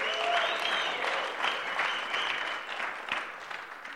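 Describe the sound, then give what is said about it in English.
Applause from an audience welcoming a speaker at a church morning service: a steady wash of many clapping hands that thins slightly toward the end. “Let's give him a hand.”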